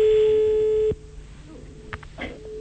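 A telephone line tone sounds as a call is placed: a single steady, loud electronic tone that stops abruptly after about a second, followed by quiet line hiss with a few faint clicks.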